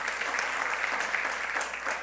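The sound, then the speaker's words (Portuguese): Applause from a church audience during a service: dense, steady clapping from many hands that holds an even, fairly loud level throughout. “Você pode aplaudir ao Senhor aí?”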